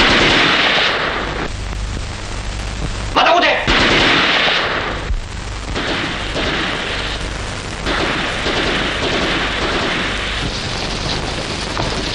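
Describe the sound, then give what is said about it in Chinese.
Gunfire erupts in a wartime confrontation, dense bursts of rapid shots forming a loud, continuous rattle with sharper cracks and brief dips in intensity. “赶快出来，再不出来我就开枪了。”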